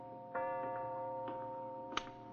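A clock running about five minutes slow gives a few soft, irregular ticks over a steady, tonal hum.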